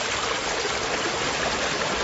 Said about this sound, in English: that rain then infiltrated gradually into the ground, ending up with this steady flow of this river.